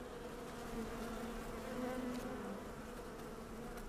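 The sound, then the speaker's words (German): Honey bees buzz in a faint, steady drone that stays even and continuous throughout, with no other sounds. “Brumm, brumm, das ist die Honig- und Bienenausgabe von Eine Stunde Netzbasteln.”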